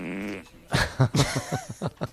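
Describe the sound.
A fart sound effect: a sustained buzzy tone, then a quick series of short, blurting bursts with no voices.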